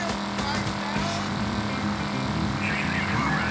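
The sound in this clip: Steady engine drone of a car being driven in a video game similar to GTA, continuous and fairly loud throughout, blended with other game sounds.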